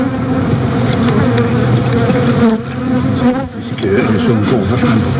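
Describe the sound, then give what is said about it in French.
Honeybee colony humming inside the hive: a dense, continuous drone with layered buzzing tones that holds steady in loudness throughout, with no voices. “Le son dans la ruche, en fait, c'est pas un brouhaha, c'est un chant.”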